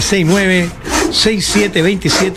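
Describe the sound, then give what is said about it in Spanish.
A handsaw cuts through wood in quick back-and-forth strokes, each carrying a squealing, pitched rasp that rises and falls, repeating rhythmically and loudly. “Yo escucho el serrucho, siempre me acuerdo de un personaje.”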